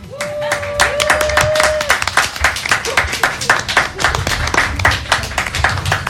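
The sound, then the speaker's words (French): A TV game-show audience stamps their feet and claps to welcome a contestant to the set, producing loud, uneven thumps and slaps for about six seconds, with a sustained tone sounding near the start. “On peut taper du pied pour la personne qui va me rejoindre autour du plateau.”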